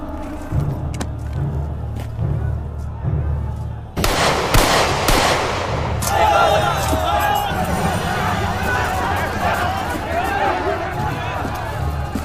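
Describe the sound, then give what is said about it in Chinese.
Gunfire in a tense standoff: a sudden loud, sharp shot bursts over steady background noise, with a short ragged tail of crackling noise after it. People talk before and after. “谁打的枪？”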